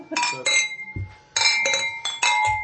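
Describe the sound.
Glass sugar and salt shakers clink together in a series of bright, ringing, bell-like taps, many quick strikes in irregular bursts with short pauses between them.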